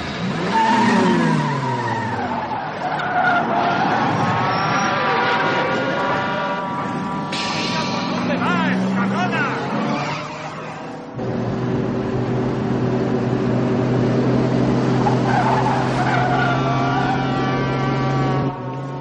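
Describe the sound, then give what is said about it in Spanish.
A car starts and drives wildly through heavy traffic, its engine revving hard with sweeping pitch changes and repeated tire squeals, loud throughout; a brief break midway gives way to a steady droning engine. “arranca y conduce de forma enloquecida entre el intenso tráfico”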